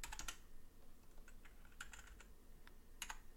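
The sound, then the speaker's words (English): Typing on a computer keyboard produces faint, quick key clicks in a few short clusters, quiet and irregular. “I'll type that in.”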